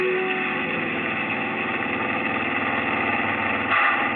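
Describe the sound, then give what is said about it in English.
Car engine at full throttle, racing down a desert highway at high speed: a dense, steady mid-pitched drone with a brief brighter surge near the end, with no voices. “The accelerator's down to the floor. Faster.”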